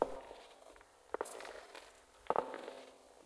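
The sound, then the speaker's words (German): Slow footsteps in a stairwell above: a few faint, soft thuds roughly a second apart, with light scuffing between them over a quiet background. “Im Treppenhaus. Oben. Langsame Schritte.”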